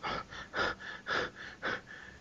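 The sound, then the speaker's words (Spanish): Heavy panting breath, a steady run of quick, faint, breathy puffs, stronger and weaker breaths alternating in an even rhythm. “¿Qué estáis haciendo? A ver. Oigo un jadeo.”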